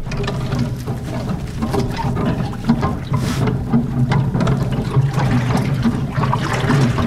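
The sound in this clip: A large wooden paddle plunges and stirs through water, making a loud, continuous churning and sloshing with a rough, splashy texture throughout.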